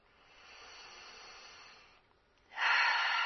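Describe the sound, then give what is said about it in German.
A slow, soft breath in during a guided meditation exercise, then a brief pause and a louder, hissing breath out. “Einatmen, ausatmen, weit werden.”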